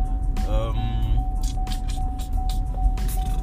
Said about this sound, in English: Sorry, I'm still driving, folks.